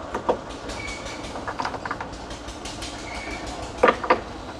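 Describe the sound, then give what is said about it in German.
A railway train runs steadily in the background with a low, continuous rumble. A few sharper clickety-clack wheel knocks stand out here and there, and the whole sound stays fairly faint. “Hintergrund tuckert wunderschön die Eisenbahn.”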